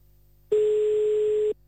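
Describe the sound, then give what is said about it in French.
A single steady telephone call tone sounds while a number is dialed: one flat, mid-pitched beep lasting about a second, clear and alone against a faint background. “on va aller appeler à Ayrton”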